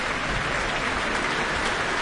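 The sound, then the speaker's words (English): Sustained applause from a full concert audience at Auckland Town Hall as they call the conductor back to the stage; dense, even clapping that blurs into a steady wash, with no voices standing out. “No sign of them fading. They clap on, bringing Okko Kamu back to the stage.”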